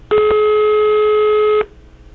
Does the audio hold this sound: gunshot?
no